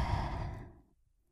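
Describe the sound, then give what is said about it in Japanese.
One deep, audible breath out during a guided breathing exercise, a soft, airy exhale that is fairly full at first and then fades away within about a second, heard alone. “私の声に合わせて深呼吸していこうね。いいかな。はい、吸って”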